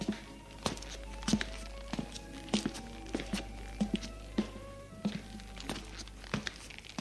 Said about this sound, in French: Elle fait les 100 pas pendant qu'il lit.